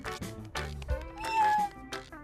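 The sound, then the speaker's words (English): A small cat meows in a drawn-out, fairly high call that holds and bends in pitch, mixed with other tonal sounds at moderate loudness. “This little kitty was the very first neighbor to visit.”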